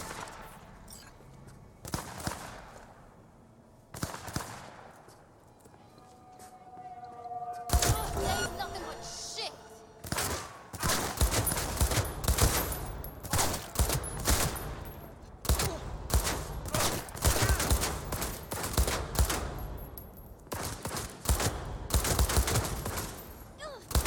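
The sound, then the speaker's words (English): Gunfire crackles in dense, rapid bursts of many loud shots after a quieter opening with a few scattered cracks, while people talk amid the shooting. “They're shooting at me.”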